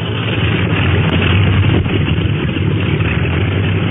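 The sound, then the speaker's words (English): Engines of the China Clipper flying boat warming up, a loud, steady, low droning rumble that holds without pause from start to end. “Say, they're winding up the clipper motors.”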